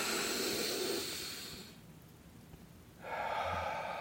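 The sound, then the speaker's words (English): Deep breaths taken in a guided breathing exercise between two men: a loud, airy rush of breath, a quiet pause, then a second strong breathy hiss. “All right, here we go. Three deep breaths.”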